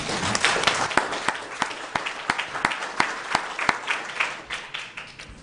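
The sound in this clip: Applause in a legislative chamber welcoming visiting youth exchange guests: a small crowd claps steadily, with sharp individual claps standing out in an uneven rhythm at moderate loudness.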